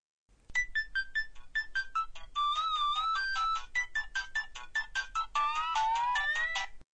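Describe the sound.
An electronic phone ringtone signals an incoming call. It plays a bright, rhythmic run of pulsed melodic tones in repeated phrases, fairly quiet and alone.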